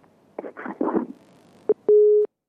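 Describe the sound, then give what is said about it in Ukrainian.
Telephone busy signal after a caller hung up: brief muffled noise, then a short beep followed by a longer steady mid-pitched tone that cuts off into silence. “На жаль, дорогий слухач поклав. Слухавку”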